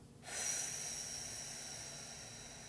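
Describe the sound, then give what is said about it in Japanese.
A slow exhaled breath during a guided relaxation breathing exercise, heard as a soft, steady airy hiss that starts abruptly and then fades gradually over a couple of seconds, quiet and alone. “笑顔のままゆっくり吸い込みます、はい、ではまたゆっくり吐いていきましょう”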